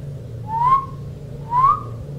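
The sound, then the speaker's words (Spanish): A person whistling among trees near a cabin: two short, rising whistled notes about a second apart, over a low steady hum. “Alguien silbó entre los árboles.”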